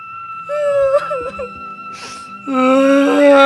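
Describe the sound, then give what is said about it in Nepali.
A boy crying, starting with faint, wavering whimpers and sobs, then breaking into a louder, sustained high wail that holds to the end. “किन रुन्छस् बाबु? नरौ नरौ बाबु।”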